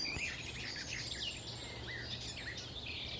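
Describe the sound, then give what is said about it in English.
A garden warbler sings on Sugar Loaf mountain, a faint, rambling stream of quick, high warbled phrases running on continuously over a soft background hiss. “Might be a garden warbler again. I think that is. Sort of rambles on.”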